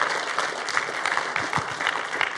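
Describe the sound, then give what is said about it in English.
A church audience claps to welcome first-time visitors: dense, steady applause from many hands, with no pauses. “If this is your first time here, we just want to welcome you. And we do that around here by clapping for you.”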